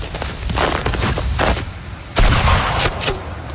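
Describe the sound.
A rifle shot during hunting: one loud, sharp crack stands out among several weaker bursts and a rough, rumbling background noise.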